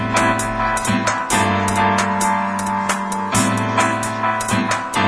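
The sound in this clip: House music playing at the Aquelarre bar in Iruña: a loud, steady pulsing beat under sustained, layered synth chords, continuous throughout with no talking.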